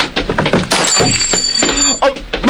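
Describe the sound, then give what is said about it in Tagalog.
A glass perfume bottle is knocked over and breaks: a loud crash of shattering glass with bright, ringing shards, followed by a few smaller clinks, with some voice sounds mixed in. “Nasalapay kong butilya sa pahumot.”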